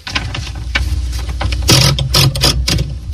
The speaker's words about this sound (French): Ah oui, non, c'est une machine à écrire.